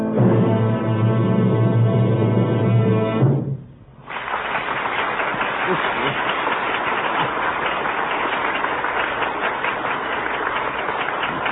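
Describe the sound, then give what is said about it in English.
An audience ovation after a musical performance: sustained tonal music stops, a brief near-silent gap follows, then dense, loud, steady applause continues to the end. “It's the greatest ovation he's ever had.”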